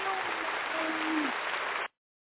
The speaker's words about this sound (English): Let's give her a round of applause